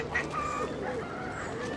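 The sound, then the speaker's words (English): Geese honk from cages in a Cuban backyard that also holds pigeons, ducks and roosters, giving a few short, nasal calls over a steady background of noise. “We have pigeons, ducks, geese, and roosters.”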